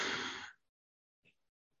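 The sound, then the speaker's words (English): One deep breath drawn in during a guided breathing exercise: a loud, airy inhale that fades and stops after about half a second, followed by near silence with a couple of faint small sounds. “And now exhale. Now one more time, super deep breath in.”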